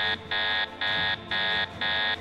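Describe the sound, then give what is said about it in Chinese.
Warning alarm sounding from a robot's head over damaged memory data: four loud, even electronic buzzes with short gaps between them, harsh and high-pitched in a steady rhythm. “脑中却发出提示声音： 警告，警告，记忆资料已损毁，你必须连上网络更新重整资料才能修复。”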